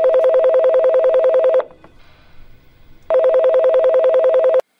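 Touch-tone beeps of a telephone number being dialed. Two loud bursts of rapid, evenly spaced tones are separated by a short, quieter pause, with no talk.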